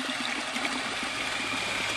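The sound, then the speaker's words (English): Water spewing from a hose nozzle shaped like a gas pump nozzle as containers are filled: a steady, even rush of water with no breaks and no voices. “holding a hose that looks kind of like a gas pump nozzle. But it's spewing water. I'm just filling up some containers.”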